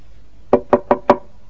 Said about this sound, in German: klopfte es an die Tür